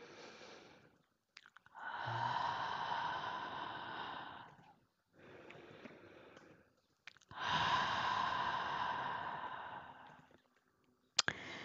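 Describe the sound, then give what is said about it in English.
Deep breathing during a guided relaxation and affirmation session: two long, loud drawn-out breaths, each lasting a few seconds, with softer, shorter breaths between them and a brief sharp sniff at the end. “We're going to take a few deep breaths. Two more.”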